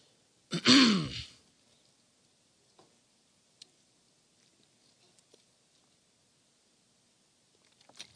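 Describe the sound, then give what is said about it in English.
A single short, rough throat clearing sounds out alone, followed by near silence broken only by a few faint scattered ticks. “Something stuck in my throat.”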